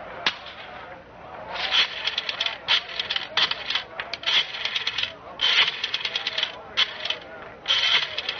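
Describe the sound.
A rotary telephone dial clicks and ratchets in bursts, being dialed by matchlight in the dark; the clatter comes in several short runs, with voices at times.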